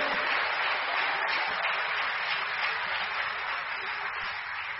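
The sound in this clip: An audience at a church worship service applauds in a dense, even wash of clapping. It holds steady without a break from start to finish.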